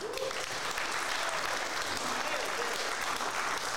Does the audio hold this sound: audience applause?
yes

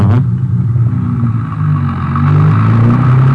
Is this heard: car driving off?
yes

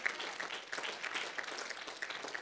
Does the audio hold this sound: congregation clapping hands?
yes

